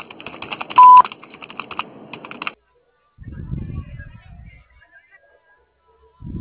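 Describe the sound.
A voicemail beep sounds before a message is left: one short, loud, steady high tone over a recorded voice prompt, followed after a pause by a person speaking.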